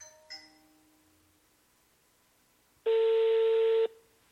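Ringback tone of an unanswered telephone call: one steady, buzzy electronic tone lasting about a second that stops abruptly, following near-silence and a faint brief tone at the start.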